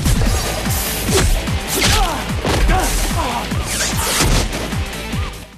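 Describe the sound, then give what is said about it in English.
Punches, kicks and heavy blows in a martial arts fight between Smoke and Liu Kang: many rapid thuds, whacks and swishing strikes, loud and continuous, with no pause between the impacts. “Smoke clotheslines Liu Kang, but he manages to land on his feet. Smoke kicks him in the face. Liu Kang rolls out of the way as Smoke attacks again.”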